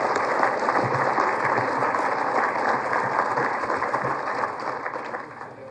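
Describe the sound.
Sustained audience applause at an engineering awards event, a dense, even wash of clapping that holds steady for several seconds, then gradually fades near the end.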